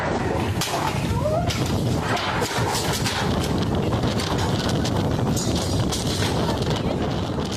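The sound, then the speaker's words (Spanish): Strong gusts from Hurricane Polo batter a department store in La Paz, Baja California Sur: a loud, constant roaring rush of wind with scattered clattering knocks throughout. “Fuertes ráfagas de viento azotaron una tienda departamental en La Paz, derribando maniquíes, exhibidores y mercancía, mientras clientes y empleados buscaban dónde refugiarse.”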